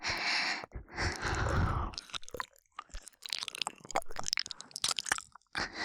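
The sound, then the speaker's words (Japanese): Wet mouth sounds of licking and nibbling an ear, close and intimate, with many squishy smacks, clicks and soft bites mixed with breathy passages and no spoken words. “先生の耳おいしい。少し汗が混じってしょっぱい。耳の裏もペロペロしちゃう。”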